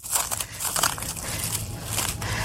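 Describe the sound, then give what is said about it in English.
Plastic wrap crinkles and crackles as it is folded over the edges and ends of a full loaf pan, a steady dense rustle with brief sharper crunches and no talk. “I'm going to fold in my plastic wrap on the edges like this, and then I'll fold in the ends like this”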